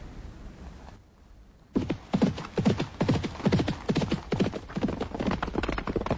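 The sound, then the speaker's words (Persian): A horse's hooves clip-clop steadily as it is led by the reins after its rider dismounts, a long even run of many sharp hoof strikes that follows a short stretch of near-quiet. “عبدالله در حال رفتن از اسب پیاده شده و افسار به دست و افتان و خیزان در حال رفتن است”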